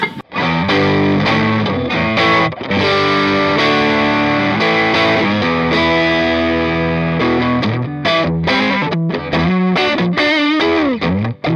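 Overdriven electric guitar on its Alnico neck pickup, a warm, loud distorted tone: long ringing chords give way to choppier chord stabs and short melodic note runs with a bend near the end, heard alone.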